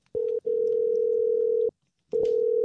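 A phone line ringback tone sounds while a number is being called. It is a steady, single-pitched tone in long bursts broken by two short silent gaps, with no voices.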